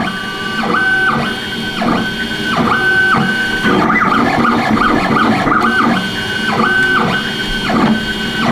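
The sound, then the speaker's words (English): A 3D printer runs in a studio while printing a semi-automatic handgun. It gives a loud, continuous mechanical whirring with stepped motor tones that rise and drop in a regular repeating pattern, without voices. “we have hired a 3D printer to show the dangers of that. We've got one live in the studio. Bernie, how's it looking? Well, it's over there in the corner firing away, as you can hear.”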